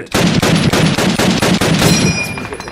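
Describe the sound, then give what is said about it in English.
Gold-plated Uzi submachine gun fire: a rapid, evenly spaced run of loud, sharp shots that continues steadily for nearly three seconds, heard alone. “Gold-plated Uzis. For the future. And for today's episode”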